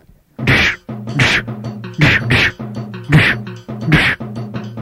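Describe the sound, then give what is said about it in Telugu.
Fists pound a man's back in a run of several heavy, rhythmic thumps, each a loud dull blow, with a steady low droning sound between the hits. “అబ్బే ఇవేం గుద్దులు, ఇట్లా single single గా గుద్దితే నా ఒళ్ళు నొప్పులు ఎట్లా తగ్గుతాయి?”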